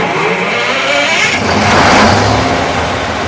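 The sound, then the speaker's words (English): A trailer-sized rented generator, as big as a semi-trailer, runs behind a nursing home with a loud, steady engine roar that swells briefly partway through and then holds even. “Out back behind the DeLand nursing home, one of the directors fires up a generator the size of a semi-trailer.”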